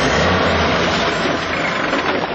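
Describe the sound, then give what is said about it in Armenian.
Engine of an aging Soviet-made passenger bus, built 25 to 30 years ago and used for local routes in Armenia's Shirak province: a loud, dense, continuous rumbling drone with no breaks. “Խորհրդային արտադրության ու իրենց դարն ապրած այս ավտոբուսները դեռ կշարունակեն ուղևորներ փոխադրել։”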